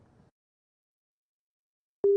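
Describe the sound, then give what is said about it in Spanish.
A single short telephone line beep sounds while a call reconnects, loud and steady after a faint murmur and a long silence. “Bueno, se está reconectando la llamada.”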